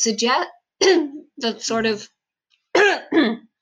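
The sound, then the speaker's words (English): Several harsh, throaty coughs and throat-clearing bursts come in short clusters separated by brief pauses, fairly loud with no other talk. “sorry, I'm going to have to cut that out because I coughed a lot.”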